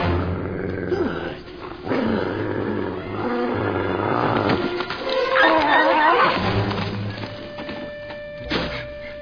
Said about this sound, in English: I can't believe you actually bit that dog on the ear.